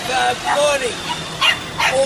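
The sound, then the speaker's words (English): Two dogs give a few short, sharp yips and barks while a man keeps talking over them. “there's a lady right there with these two dogs.”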